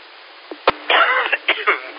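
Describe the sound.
A man coughs after coffee went down the wrong way during an amateur radio check-in: one sharp cough burst, then rough, throaty rasps over a thin, band-limited line.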